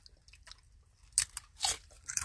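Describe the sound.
Crisp crunching of a BLT-flavored Lay's potato chip being bitten and chewed, with a few sharp, bright crunches standing out over softer chewing and no talking.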